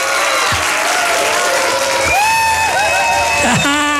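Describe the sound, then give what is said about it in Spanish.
Loud applause and cheering for a group of singers: a steady roar of many hands clapping, with whoops and shouting voices rising above it. “Para todos los que cantaron, venga el aplauso fuerte.”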